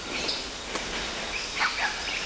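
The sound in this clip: Faint bird calls on a forest trail at about 225 meters in June: a few short, thin chirps rise above a steady hiss of background noise, with no voices.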